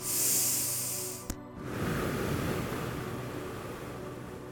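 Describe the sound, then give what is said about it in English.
Breathing in through the nose and out through the mouth during a chakra meditation: a bright, high-pitched hiss of intake, a small click, then a longer, broad rushing exhale that fades slowly. “Breathe in through your nose, out through your mouth, to move on to our next chakra.”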